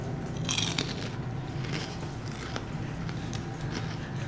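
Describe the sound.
Crisp crunching of white and blue Frozen-inspired popcorn being bitten and chewed, a few short bites standing out over a steady background hiss.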